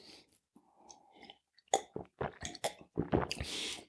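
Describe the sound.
Chewing on a piece of bread: a quick series of crisp, crunchy bites and moist mouth sounds that grows denser toward the end, fairly quiet with no talking.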